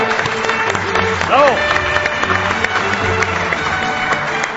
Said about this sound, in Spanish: desde la Diputación de Almería, saludamos con un aplauso al resto de España.